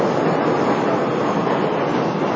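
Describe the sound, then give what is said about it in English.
A train passes in the city with a steady, dense roar that holds evenly at the same loudness for the whole clip, with no breaks and no voices. “Hello, train.”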